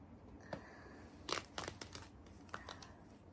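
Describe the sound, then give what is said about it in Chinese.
Black nylon stockings, worn by someone seated on a sofa, are torn open with a few faint, short ripping and crinkling sounds separated by quiet gaps. “接下来，我要先把丝袜撕开。”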